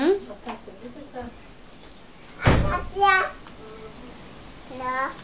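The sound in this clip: A single dull door thud cuts sharply through a child's chatter, one short knock between stretches of young speech.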